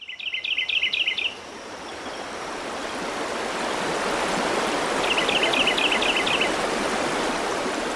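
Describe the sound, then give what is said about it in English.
Birds chirping beside a flowing river, with two short bursts of high, rapid trilling chirps over a steady rush of water. “I walked out to the river to hear the birds chirp and to soak in some calm before I continued on my way.”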